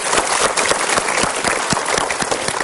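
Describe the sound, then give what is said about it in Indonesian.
An audience at a talk applauds, a dense, steady patter of many hands clapping that holds at an even level throughout, with no voices over it. “Kita berikan tepuk tangan dulu.”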